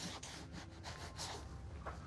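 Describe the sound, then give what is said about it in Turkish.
A dry cloth wipes a painted surface during a renovation, with red showing through the worn finish. It makes a faint, steady rubbing with several soft strokes. “Sonra da kuru bir bezle burayı silelim.”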